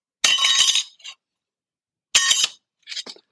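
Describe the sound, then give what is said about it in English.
Newly printed metal business cards clink together in two bright, metallic bursts, each followed by a softer, shorter rattle, with silence between them and no voices. “that noise is my metal business cards”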